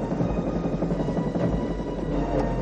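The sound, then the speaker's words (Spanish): Helicopter hovering over a rooftop in a 1993 action thriller chase scene, a steady, dense rotor and engine roar that holds at a constant level throughout without clear breaks. “es detectado por el helicóptero, desde donde realizan varios disparos”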